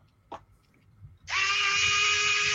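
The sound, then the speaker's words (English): A powered screwdriver fitted with bits removes bent bolts from a quadcopter. A couple of faint taps come first, then a loud, steady, high-pitched motor whir starts abruptly and holds to the end. “So, I use this TBS bits here. No way, the iFixit. That looks cool.”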